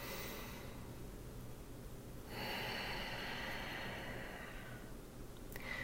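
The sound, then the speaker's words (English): A slow, deep breath during a guided relaxation exercise, a soft airy rush of about two and a half seconds that is faint and heard alone. “Nice deep breath.”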